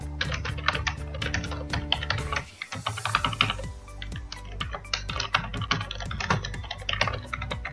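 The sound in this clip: Computer keyboard typing as a task title is entered into a to-do list app, with rapid, uneven clicking key strikes that continue steadily through the whole passage, pausing briefly near the middle.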